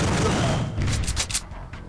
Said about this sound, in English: You almost forgot to shoot twice. Hold it. I almost forgot to shoot that second time.